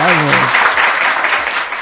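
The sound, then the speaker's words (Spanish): Applause from a crowd, a steady, dense patter of clapping that carries on for about two seconds, with a brief voice heard at the very start. “Aplausos. Por favor, aplausos.”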